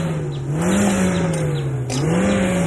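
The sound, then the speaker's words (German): A car engine revving hard, a loud continuous roar whose pitch swells up and dips back twice, with no voices heard. “Und ich gebe noch mal Gas. Aufpassen! Was sagt denn jetzt der Motor?”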